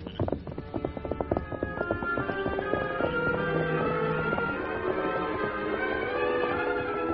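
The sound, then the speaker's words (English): Horses' hooves clip-clop steadily along a trail as riders move slowly, with many even hoof falls continuing throughout. “Riding slowly, the Lone Ranger and Tonto turned into the branch trail behind the man they were following.”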